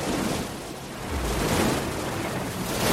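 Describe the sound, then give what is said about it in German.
Huge ocean waves surround a sailing ship rounding Cape Horn: a dense, roaring wash of surf and wind that swells, dips and surges again, continuous and loud with no voices. “Bei der Umrundung Kap Horns kämpft sich die Beagle durch haushohe Wellen.”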